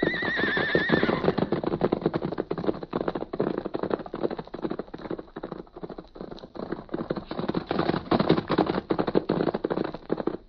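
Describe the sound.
Milk-white horses neigh and gallop: a loud whinny opens, then fast, dense hoofbeats drum continuously and loudly to the end.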